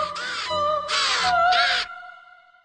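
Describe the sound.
Ravens caw while pecking at a body lying in the snow. There are three long, harsh caws in a row, followed by a sustained tone that fades away.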